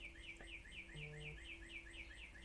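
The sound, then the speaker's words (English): Birds chirp outside, faint but steady, with short high calls repeating in a quick, regular pattern throughout over a low, constant hum. “I don't know if you hear this, but the birds are making lots of noise outside.”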